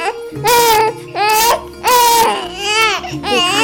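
An ill baby cries in several loud, high wailing bursts separated by short gasping breaks, each cry rising and wavering in pitch.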